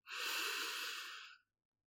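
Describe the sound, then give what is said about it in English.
A single deep breath drawn in through the nose, a soft, airy inhale that holds steady for well over a second and then fades, with nothing else heard. “Now, take a deep breath in through your nose”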